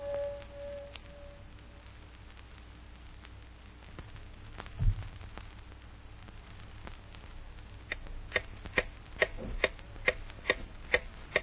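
A clock ticks in faint, regular beats, with the ticks becoming clearer and evenly spaced in the second half, over a quiet background hiss and one soft low thud near the middle.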